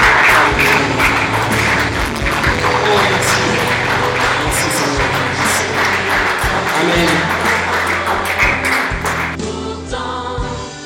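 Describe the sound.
Congregation applauding and cheering at a church service, a dense, steady wash of clapping and voices that holds loud throughout and eases off slightly at the very end.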